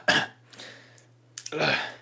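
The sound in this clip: A person's acted cough during a tabletop role-playing session: two rough, throaty bursts, a short one at the start and a longer one at the end, over a faint, steady low hum.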